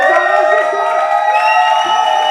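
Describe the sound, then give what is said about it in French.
Audience cheering and making noise, a steady crowd roar with mixed shouting voices that holds at a loud, even level throughout. “OK, tout le monde, on fait du bruit comme ça, on teste 7000!”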